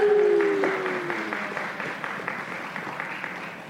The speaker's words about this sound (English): All right, let's give it up for Katie Wilson.